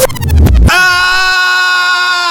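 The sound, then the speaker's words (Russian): A woman screaming loudly: a short, broken, rough start gives way to a sustained, high, harmonic wail that holds steady for nearly two seconds. “Я сестра, кричу с утра.”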